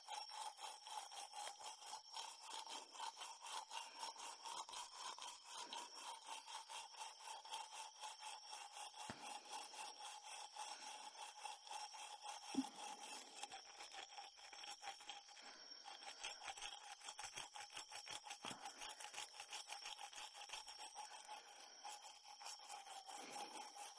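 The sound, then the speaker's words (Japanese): Polishing by rubbing: many rapid, even scratchy strokes repeat steadily in a dense swishing rhythm throughout, with no voices. “慣れておりませんので、もしも変なところを磨いてましたら教えてくださいね。”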